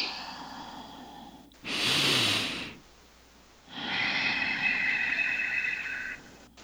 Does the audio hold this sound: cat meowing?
no